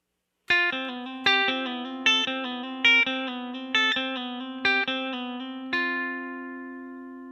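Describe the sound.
Electric guitar plays a slow lick in the key of F, ending on an F at the 10th fret of the G string. Seven evenly spaced picked notes with a slightly distorted tone lead into a final note left ringing and fading out, with no voices.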